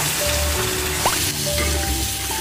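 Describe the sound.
Pork trotters stir-frying in a hot wok give a steady, loud, hissing sizzle that holds throughout, with faint scrapes of stirring beneath it.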